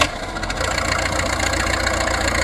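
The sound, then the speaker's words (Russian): Aircraft engines run after being started at an airfield, a dense, steady mechanical drone that swells slightly after the first half second and then holds level. “Летчики, на аэродром! Заводим моторы!”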